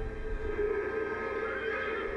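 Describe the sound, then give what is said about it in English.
A horse whinnying in a film: a drawn-out, wavering tonal neigh over a low rumble that holds for about two seconds, with no talk. “There's a horse.”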